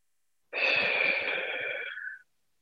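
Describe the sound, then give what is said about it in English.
A single long, deep breath, airy and hissy with a slight wheezy edge, lasts under two seconds and is heard alone in silence. “One more deep breath.”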